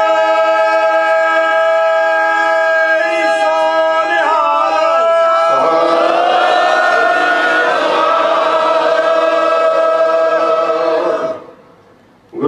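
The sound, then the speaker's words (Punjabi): A Sikh audience shouts a jaikara in honour of martyrs: a long, steady call swells into a loud, massed roar of many voices. The roar holds for several seconds and then cuts off abruptly. “ਸ਼ਹੀਦਾਂ ਦੇ ਨਾਮ ਤੇ ਇੱਕ ਜਕਾਰਾ ਛੱਡ ਦਿਓ”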